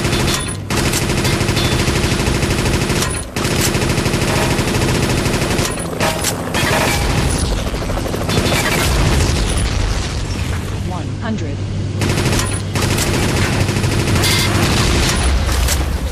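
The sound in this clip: A rapid-fire machine gun in a video game blasts almost nonstop in a dense, loud stream of shots and booming impacts. A few brief breaks come where the weapon pauses to reload itself.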